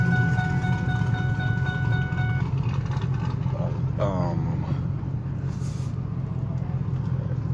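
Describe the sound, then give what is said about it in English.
Vehicles passing on a street in Dallas: a steady, heavy low rumble of engines and road noise runs throughout, with a high whine early on that cuts out, and a brief rushing sweep around the middle as something goes by. “if you hear the different vehicles here in Dallas,”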